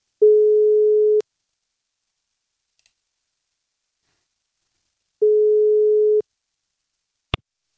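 Telephone ringback tone while placing a call: two steady mid-pitched beeps, each about a second long and roughly four seconds apart, followed by a single sharp click, with silence in between.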